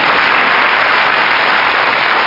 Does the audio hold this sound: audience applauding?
yes